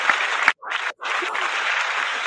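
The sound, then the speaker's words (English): Applause comes as a steady, dense wash of clapping. It drops out twice within the first second before continuing evenly to the end. “Hey, you got the applause and everything from me, man.”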